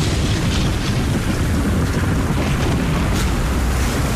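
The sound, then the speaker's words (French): A thunderstorm breaking over the beach at Ostend comes through as a loud, unbroken roar of wind and surf, a dense wash of noise that holds steady throughout. “sur la plage d'Ostende, le quatrième orage de la demi-heure éclatait.”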